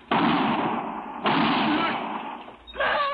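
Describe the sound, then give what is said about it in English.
Gunfire: three loud shots, each a sudden blast that trails off into a long, rough, sustained roar before the next one. “Husband, you shot my husband.”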